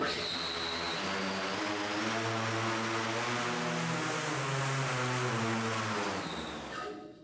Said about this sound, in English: Okay, restarting data acquisition and starting motors now. It's spinning up.